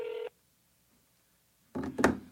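A phone number is dialed on a phone: a short keypad tone, then a pause of over a second before a brief, louder burst of tone and handling noise.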